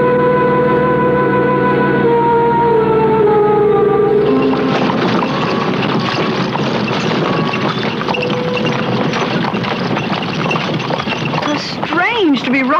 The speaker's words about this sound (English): covered wagon. It's not nearly as uncomfortable as I thought it would be.